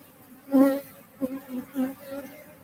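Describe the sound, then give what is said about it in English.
Angry honey bees buzz around an unwanted queen that had been plugged into her cage with wax, their high droning hum swelling in three distinct bursts over faint background noise. “These bees are angry. They absolutely hate this queen. There's something about her they don't like.”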